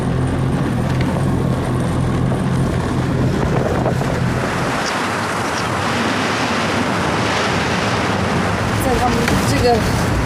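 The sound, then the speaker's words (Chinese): Strong Arctic storm wind roars continuously and loudly, a dense rushing blast buffeting the microphone with gusty texture throughout. “这是我见过北极最大的一次风暴。”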